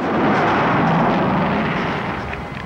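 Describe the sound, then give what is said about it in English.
A spaceship crash-landing on ice in a sci-fi film scene: a loud, broad roaring rumble like an explosion that holds strong, then gradually tapers off toward the end. “The spaceship hurtles back towards the ice. The catchman runs for cover as it crash lands, sending up a plume of ice crystals.”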